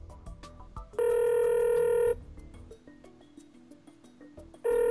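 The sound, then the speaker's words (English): Telephone ring tone while a call is being dialed: a loud, steady electronic tone with bright harmonics lasts about a second, then a second ring starts near the end. Faint clicks come before the first ring. “Dial him up.”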